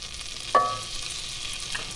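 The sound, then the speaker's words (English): Plain flour is stirred into melted butter in a pan, giving a faint, steady sizzle with a brief scraping sound early on. “The butter's melted now. I'm going to add 40 grams of plain flour”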